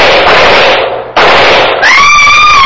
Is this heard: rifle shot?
yes